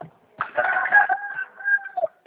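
A rooster crows once, a single drawn-out, strained call that holds and then trails off, fairly faint against quiet surroundings.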